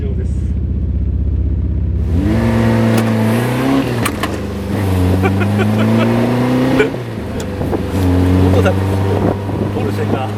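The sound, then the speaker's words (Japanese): A Honda S800 sports car engine drives along a snowy road. The loud, steady engine note climbs in pitch and drops back several times as the gears change, with constant wind noise. “すげー、雪道を S800 で走っている。”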